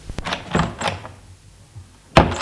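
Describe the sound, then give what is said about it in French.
A door being opened as someone is shown out: a few light clicks and scraping movements, then a sharper thud near the end. “Elle le raccompagne jusqu'à la porte. Elle ouvre la porte.”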